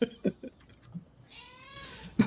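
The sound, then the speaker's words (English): A pet cat gives one drawn-out, wavering meow, preceded by a few soft thumps and clicks and ending on a sudden sharp burst of noise. “Yeah, that's my cat.”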